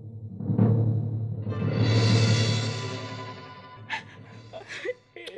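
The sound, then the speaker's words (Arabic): Crying and sobbing from a distressed person: a long, strained, wailing sob swells and fades, followed by a few short, catching sobs and breaths near the end. “طب فهميني ليه العياط ده؟”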